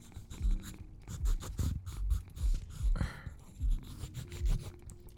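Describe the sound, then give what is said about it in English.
Pencil drawing on paper during a quiet self-portrait sketch: soft scratchy strokes come in many short rhythmic bursts with small pauses, faint and close, with no talking. “I'm gonna make a drawing of myself.”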